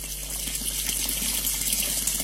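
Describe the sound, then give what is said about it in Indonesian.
Water running steadily from a tap, a constant even hiss and rush that continues without a break. “itu keran kenapa nyala mulu?”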